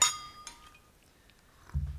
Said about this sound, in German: Meine Herren, noch ein Glas Champagner. Bitte trinken Sie doch, meine Herren.